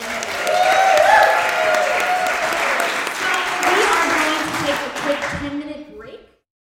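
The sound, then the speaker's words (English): Audience applause for a pair of women on stage: a dense, steady wash of clapping that holds for about six seconds, then thins and fades out. “if you guys would give these lovely ladies a hand.”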